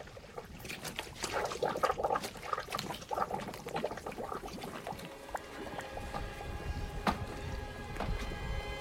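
Black liquid bubbling up out of mud, a continuous wet gurgling and trickling with many small irregular pops and bursts, fairly even in loudness throughout.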